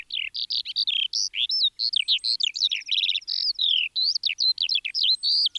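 A lark sings a rapid, unbroken stream of high twittering trills and chirps. Many short phrases run together with only brief gaps, loud and alone.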